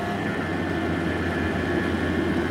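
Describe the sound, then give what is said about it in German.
A moped engine runs with a low, even droning hum. It stays at a constant level through the short stretch, and no voices are heard. “Das Moped ist schon bald nicht mehr zu sehen.”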